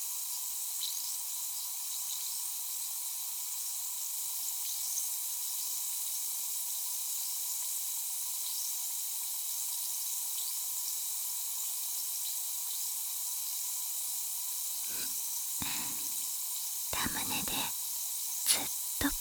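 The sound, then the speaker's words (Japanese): Fizzing of a carbonated drink: a steady, bright hiss fills the whole stretch, with a few sharper crackling bursts toward the end. “炭酸音の気持ちよさ、存分に味わってくださいませ。”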